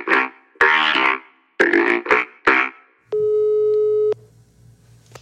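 An intercom ringing: one steady electronic tone lasting about a second after a few brief harmonic sounds, then near quiet.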